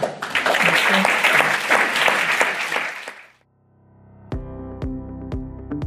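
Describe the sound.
Audience applause thanks a panel after a discussion. It is dense, continuous clapping for about three seconds, then fades to silence before a short musical jingle of bright, ringing notes.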